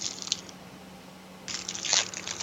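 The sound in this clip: Crunchy Drake's Funny Bones snack cakes are chewed up close, mukbang style, with two short bursts of crisp, crackling crunches separated by a brief quiet pause. The crunching is faint.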